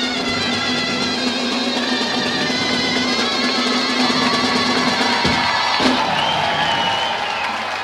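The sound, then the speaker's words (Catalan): An audience at a Catalan festival procession with a moros troupe cheers and shouts enthusiastically. Many overlapping voices keep up a steady, loud roar throughout. “Perfecte! Entusiasme general del públic.”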